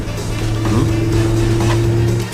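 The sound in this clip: A car being driven, its engine producing a steady low drone with a faint whine above it, holding level and unbroken from start to finish.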